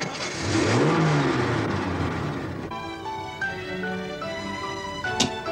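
A car engine revs and pulls away as the car drives off, a rising whine settling into a steady droning hum, fairly loud throughout.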